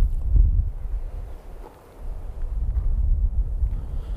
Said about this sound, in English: There's no protection. So we're getting a lot of wind noise.